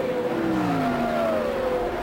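Race car engines roar through the first turn of an Indy race led by the bright yellow number 4 Pennzoil special, a ground-effects car, with a loud, steady engine whine that slowly glides downward in pitch.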